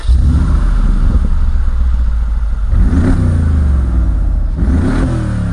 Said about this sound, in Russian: Это зарычал движок немецкого монстра. Но тут же попытался заглохнуть.